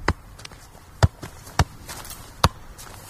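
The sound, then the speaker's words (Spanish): Dull thuds of a football being kept up with repeated touches: a few sharp, separate impacts at an uneven pace, four of them standing out clearly above fainter taps, with no talking. “Hace toques de balón.”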